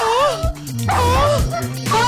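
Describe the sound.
A dog gives a few high, wavering yips and whimpering cries, each pitched call bending up and down in quick bursts over about two seconds.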